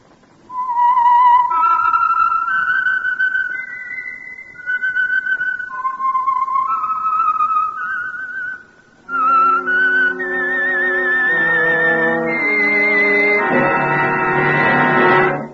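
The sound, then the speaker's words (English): A whistled signature tune for a radio drama begins as a clear, high solo melody of short and held notes, then fuller accompaniment joins about halfway and builds into rich sustained chords. “the signal to listen for is this whistle that identifies the Signal Oil program, The Whistler.”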